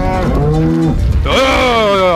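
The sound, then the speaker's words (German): Cows mooing as they are herded: two long, loud, low moos back to back, the second starting lower and bending upward, with strong tonal harmonics. “Die Kühe nicht erschrecken. Die ersten kommen von alleine und dann fängt man bei der hintersten Kuh an zu treiben.”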